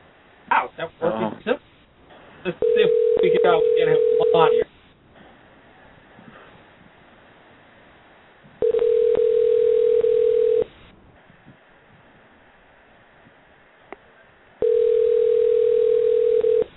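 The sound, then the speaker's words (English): After a telephone number is dialed, the line gives three long, steady ringing tones of about two seconds each, separated by stretches of quiet line hiss. Brief talk is heard at the start. “So, I dial. That number. Oh, there it goes.”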